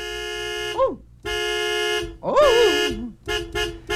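A car horn honks as an official horn sound effect. It gives three long, steady, bright blasts, some ending in a wobbling, sliding pitch, then a few quick short toots.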